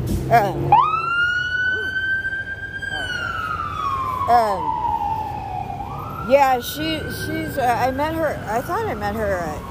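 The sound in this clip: A police car siren wails on a street, sweeping up sharply, holding high, then sliding lower before climbing again. It is loud and continuous beneath a person talking throughout.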